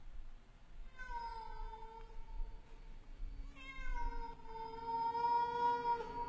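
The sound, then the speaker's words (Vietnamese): A large black cat meows twice, a wavering cry followed after a pause by a longer drawn-out one that starts higher and sinks slightly, both faint over a low rumbling background. “có tiếng con mèo văng vẳng kêu lên, nghe đến giật mình lạnh người.”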